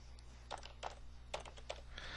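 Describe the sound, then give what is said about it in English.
Keystrokes on a computer keyboard correct a typo: a handful of light, quick taps spaced irregularly over a faint steady hum. “And I'm going to fix my typo there. So this will be text box 2.”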